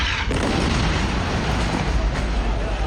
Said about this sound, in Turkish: Bölgede yaşanan patlama anı amatör kameralara yansıdı.